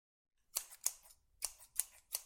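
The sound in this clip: Crisp scissor snips during a home haircut, five sharp metallic cuts in an uneven rhythm, each short and bright, with quiet gaps between them.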